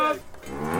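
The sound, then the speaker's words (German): A Harzer Rotes Höhenvieh cow lets out a single short, low moo at the centenary cattle festival in Tanne, with a throaty, wavering pitch. “Kenner haben es vielleicht schon am ersten Moon gehört. Das ist der Sound vom Harzer Rotes Höhenvieh.”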